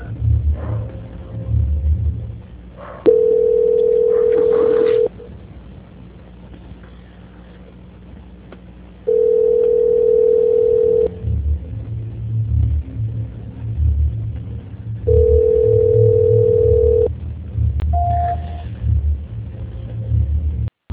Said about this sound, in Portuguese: só um minuto, por favor, que eu vou transferir a sua ligação. Tudo bem. Transferência.